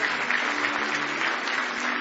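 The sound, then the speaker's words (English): An audience applauds in praise at an evening gathering: dense, even clapping that holds at a steady, moderate level for about two seconds, with no single claps standing out. “Give him one more hand clap of praise tonight if you love him.”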